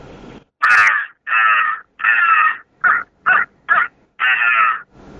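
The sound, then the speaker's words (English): Seven harsh caws from a crow call blown aggressively to make turkeys gobble: three long raspy notes, three short quick ones, then a final long caw, loud and alone with no talking. “And up in the morning, we'll use a crow call. And the crow call is one that's got to have some aggression put in it, too. And it sounds like this right here.”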